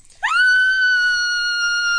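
A girl screams at home during a Portugal versus Spain football match on television. It is a single loud, high-pitched scream that rises sharply at the start, then holds a steady pitch for almost two seconds, with no talk.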